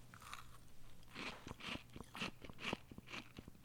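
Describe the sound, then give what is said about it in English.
Someone bites and chews a piece of falafel ball with a spinach leaf. Quiet, crisp crunches repeat in a steady rhythm of a few evenly spaced bites. “Here's a clear bite of me. This is basically the best quarter of a falafel ball that I could find, along with one leaf of spinach.”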